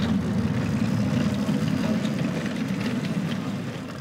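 A low, steady motor hum comes from a not-yet-fully-autonomous test vehicle set up for remote-control operation as it starts off in reverse at 6 km/h. The drone stays even and eases slightly toward the end.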